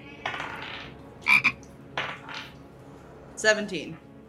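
Frog-like croaking standing in for ice toads during a fantasy tabletop game scene: a few short, quiet, raspy bursts spaced apart, some carrying bright ringing tones.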